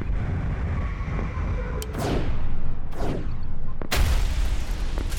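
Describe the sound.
Missiles firing in a space battle: a few sweeping whooshes and a sharp burst cut through a dense, loud rumbling roar.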